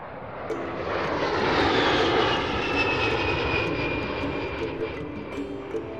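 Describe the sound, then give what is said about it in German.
A loud, steady airplane engine roar fills the whole clip, broad and rushing, with a faint tone sweeping slowly across it as the aircraft flies. “Im September 71 fliegt Knight zurück nach Japan”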